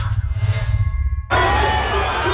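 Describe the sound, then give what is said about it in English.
A roaring crowd at a Broncos home game: a low, muffled rumble gives way to a sudden, loud, sustained wall of cheering that holds steady to the end. “There's absolutely nothing like a Broncos home game. The roar of the crowd, the sea of maroon and gold, truly the best seat in the house.”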